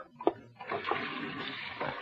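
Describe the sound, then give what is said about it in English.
Water runs from a tap as a man washes his hands, a faint, steady rush of liquid with soft splashes. “Wait till I wash my hands.”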